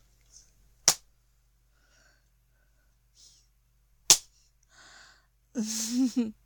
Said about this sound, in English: I'm spanking myself with my hairbrush.